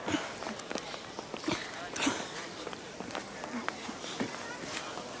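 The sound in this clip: Many footsteps of people walking over to a bratwurst stand, a steady run of soft thuds with several voices talking over them.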